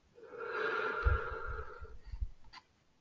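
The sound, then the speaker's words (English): A long, deep exhale during a guided breathing exercise: a steady, airy rush of breath lasting nearly two seconds with a slightly rough texture, fading into quiet. “One more time, breathe in, and then empty with breathing out.”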